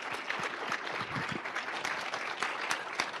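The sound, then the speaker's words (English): Audience applause for the organisers of a festival's panels: dense, steady clapping fills the whole stretch at an even level, with scattered sharper claps standing out and no voices on top. “A hand to the people who've put together all the panels for this festival.”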